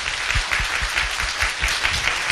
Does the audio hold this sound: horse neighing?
no